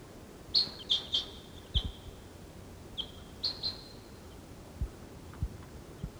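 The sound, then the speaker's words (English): Wild birds and calling decoys give short, high chirps in a few quick clusters separated by pauses, over a faint, steady background. “Decoys. There's some other wild birds around. Decoys calling.”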